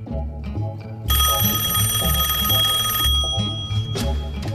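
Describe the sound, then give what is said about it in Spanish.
A telephone rings for an incoming call on a radio call-in segment, one bright, sustained ring lasting about two seconds that rises over a steady bed of background music. “Escuchen, recibimos la primera llamada.”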